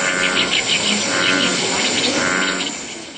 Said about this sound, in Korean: 황소개구리는 커다란 울음소리가 소의 울음소리를 닮아 붙여진 이름입니다.